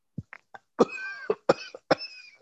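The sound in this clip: Deep coughing: a few short quiet coughs, then several heavier, harsh bursts in a row, fairly faint and with no speech.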